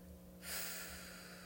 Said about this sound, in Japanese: イライラやモヤモヤはね息と一緒に吐き出してデトックスです吐き切るはい最後吸って背筋と笑顔もキープです吐きます